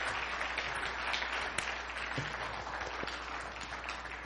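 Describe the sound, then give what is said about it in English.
Steady applause from a church audience welcoming a pastor to the pulpit at a Sunday service: a dense, continuous wash of clapping at an even level from start to finish, with no voices standing out above it. “Would you put your hands together and welcome Pastor Elias Martinez.”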